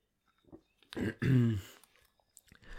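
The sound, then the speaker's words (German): A quick sip and swallow of a drink, two short soft mouth sounds followed by a drawn-out voiced exhale of relief. “Boah, mal einen Schluck getrunken, ey.”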